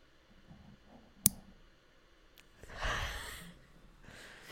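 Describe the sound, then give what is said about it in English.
Nail clippers cut a fingernail with one crisp, sharp snap, followed later by a fainter click amid quiet background rustling. “Are you just clipping your nails while we record the podcast?”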